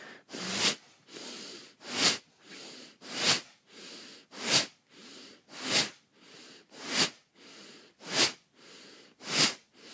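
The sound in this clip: Breathing practice carries on in a steady, fast rhythm of many forceful breaths. Sharp, loud exhalations alternate with softer inhalations, each breath a short airy rush.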